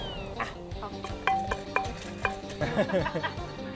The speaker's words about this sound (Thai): อันนี้ต้องตำด้วยป่ะคะ ตำด้วยกันครับ